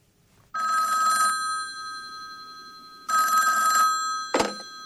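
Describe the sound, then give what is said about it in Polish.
Telephone bell ringing in two bright trilling bursts with a pause between them, followed by a short sharp clack. “przepraszam, muszę odebrać telefon.”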